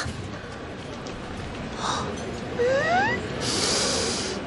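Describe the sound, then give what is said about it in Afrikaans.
Short, breathy sniffs as someone smells flowers, a couple of airy inhalations rising above a steady low background hiss. “Toekie, kom ruik hier.”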